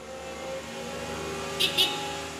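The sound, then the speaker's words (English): Engine of a Zamboni ice resurfacing machine at an ice rink: a steady, even mechanical drone, with two brief hissing bursts close together near the end. “I drive the Zamboni primarily. I call it a glorified riding lawnmower.”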